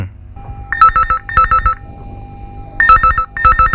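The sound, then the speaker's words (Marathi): Electronic telephone ringtone heard while a call is being placed, sounding as two pairs of bright, warbling trills with a short gap between each pair and a longer pause between the pairs. No voices. “आईला phone करते.”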